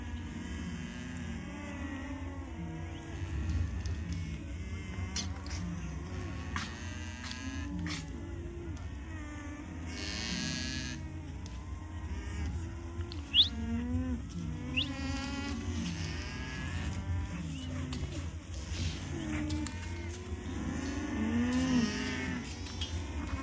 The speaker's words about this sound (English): And what you were listening to there was a herd of alpaca.